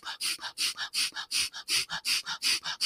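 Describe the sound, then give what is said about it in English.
Rapid, forceful exhales as someone breathes out as fast as possible in a breathing exercise. Many short, evenly spaced bursts of breathy hiss follow each other in a quick, steady rhythm. “I breathe out as fast as I can. It sounds something like this.”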